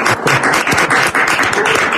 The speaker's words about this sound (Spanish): Un aplauso para Alicante.